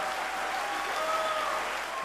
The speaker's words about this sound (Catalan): Didi Bridgewater converteix aquesta ovació amb Carmen Staff, que és la directora musical i pianista del seu quartet